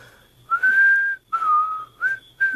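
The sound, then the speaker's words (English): A person whistles a short series of four sustained, clear high notes separated by brief pauses. The first note is the longest and the last is cut short. “Will you show me how to do that? What, whistle? Yeah. Easiest thing in the world. Just watch me. I'll show you how.”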